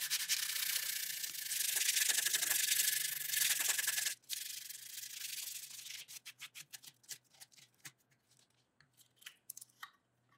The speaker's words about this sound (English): next I'll sand and round over the bevels.